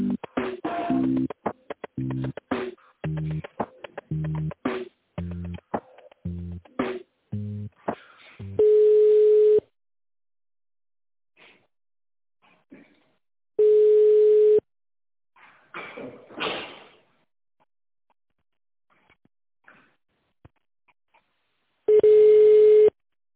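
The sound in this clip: Telephone dialing and connection tones: a rapid run of touch-tone beeps at differing pitches, then three long, steady ringback tones at one pitch, separated by quiet gaps holding faint clicks and line noise.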